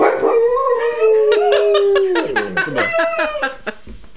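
Dogs howl in long, loud, wavering tones that hold a steady pitch and then slide downward, with a second howl overlapping in the second half.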